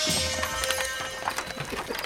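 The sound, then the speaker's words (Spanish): Horses pulling a cart clop along in a few scattered, irregular hoof beats over a steady hum. “El demonio detuvo los caballos.”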